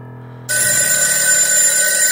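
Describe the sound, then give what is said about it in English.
A telephone rings with a bright, continuous electric bell tone. It cuts in abruptly after half a second of low hum and stays loud and steady to the end. “my phone rings and I scream. I pick up the phone.”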